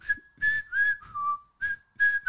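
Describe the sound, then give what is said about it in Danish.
Human whistling of a short password tune to get through a secret cave entrance in a video game. Several clear, held notes at one pitch drop lower in the middle and then return, with brief gaps between phrases. “Du skal bare sige det rigtige kodeord, så får du lov at komme igennem. Du skal fløjte, altså, du skal fløjte flute.”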